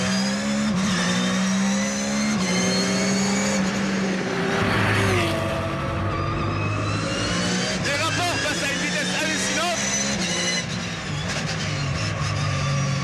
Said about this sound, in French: Moteur qui prend 9500 tours. Vous avez bien entendu, 9500 tours.